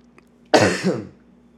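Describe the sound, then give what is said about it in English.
A single harsh throat clearing and cough breaks the quiet, a rough burst of about half a second in two quick pulses, heard alone without speech. “Pardon me. The coughing fits like happen at night, obviously.”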